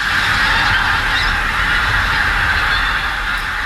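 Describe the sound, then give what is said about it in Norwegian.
Honking of large flocks of pink-footed geese gathered in Beitstad, Trøndelag, forming a dense, continuous chorus of overlapping calls that stays loud and steady throughout, with no talk. “dette er lyden av store flokker med kortnebbgås som nå oppholder seg i bygda Beitstad i Trøndelag”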